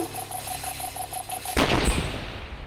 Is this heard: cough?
no